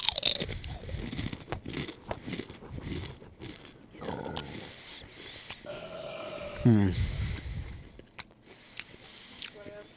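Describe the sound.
Crunching of a new Dorito-flavored snack as it is bitten and chewed, with several sharp, crackly bursts scattered among people talking.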